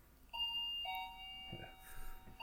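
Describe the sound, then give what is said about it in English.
A home doorbell rings with a few bright, sustained chime tones, the notes ringing out clearly over a low background hum. “I think our bell just rang.”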